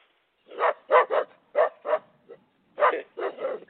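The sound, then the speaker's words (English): A person barks like a dog, a quick run of short, punchy barks with a brief pause midway, loud and alone without other talk. “Don't bark at me.”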